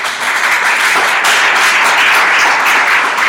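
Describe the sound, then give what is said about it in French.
Loud, continuous applause from a church audience acclaiming the Lord: a thick, unbroken roar of many hands clapping at a steady, high level from start to finish. “Est-ce qu'on peut acclamer le Seigneur simplement?”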